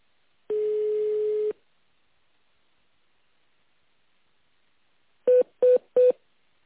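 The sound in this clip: Telephone keypad tones sound while an option is chosen in an automated phone menu: one long steady tone, a pause, then three short evenly spaced beeps, with no voices.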